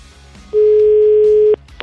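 A telephone ringing tone plays on the line while a call is placed: one loud, steady, even tone lasting about a second, with no voices around it.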